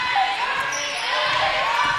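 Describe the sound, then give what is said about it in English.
A basketball dribbled on the court during a women's game, a few soft, dull bounces under a steady wash of crowd noise and a commentator's voice. “Dribbling right”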